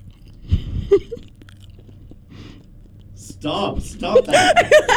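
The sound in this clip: A person chews food close to the microphone for ASMR, with crisp bites and wet mastication. A quiet, sparse opening gives way to dense crunching bursts, and soft chuckling comes in near the end.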